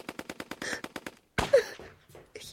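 Gunfire in rapid bursts: a quick run of sharp cracks, then after a short gap a louder blast followed by a few scattered shots.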